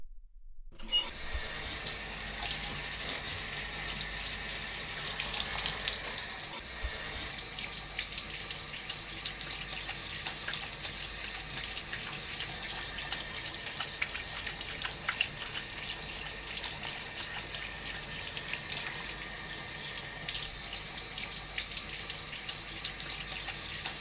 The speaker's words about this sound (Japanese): それじゃあこのまま頭を洗い流していくから、まだお目目閉じててね。